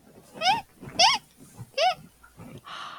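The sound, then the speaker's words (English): A child imitates a red ruffed lemur call, voicing three loud, strained, wavering shrieks in a row, followed by a couple of quieter vocal sounds. “do you know if red ruffed lemurs make any noises?”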